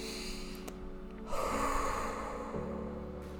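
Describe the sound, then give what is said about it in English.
A deep breath let out through the mouth as a relaxing exhale, a soft airy rush lasting about a second over a steady low background tone. “Exhale through the mouth.”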